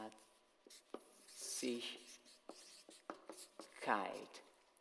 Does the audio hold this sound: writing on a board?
yes

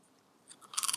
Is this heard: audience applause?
no

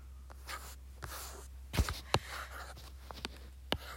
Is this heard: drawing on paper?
yes

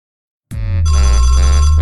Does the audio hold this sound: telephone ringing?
yes

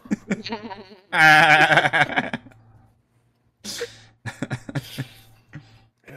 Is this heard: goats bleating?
yes

